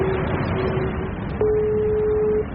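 A steady single-pitched telephone tone, lasting about a second, sounds as a call is placed by people waiting at a building entrance without the door code. It rises over constant hiss, with a fainter broken tone just before.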